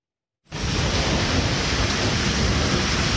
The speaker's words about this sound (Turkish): Güneydoğu Anadolu bölgesinde etkili olan sağanak yağış hayatı olumsuz etkiledi.